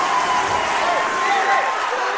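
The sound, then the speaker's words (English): Crowd cheering in the gym at Strathaven High School during a basketball game, after a made layup and foul: a steady, loud roar of many voices. It stays dense and continuous without distinct breaks. “Unbelievable. Crowd going crazy here at Strathaven High School.”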